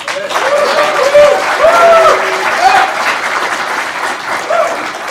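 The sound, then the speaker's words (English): An audience at a recovery meeting applauds to welcome a guest speaker, with steady, dense clapping that holds for about five seconds. “Would all of you please give an enthusiastic welcome to Charlie.”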